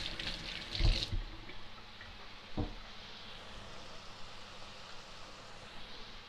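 Tap water running in a kitchen while hands are washed after cracking eggs: a steady, soft hiss of flowing water with a couple of brief splashing knocks near the start.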